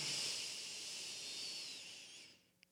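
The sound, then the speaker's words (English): A deep breath, a long, soft, airy hiss that holds steady for about two seconds, then fades away, with no talking. “Take a deep breath in with me. And out. One more deep breath in.”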